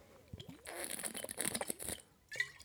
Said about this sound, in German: Ich trinke jetzt einen Schluck.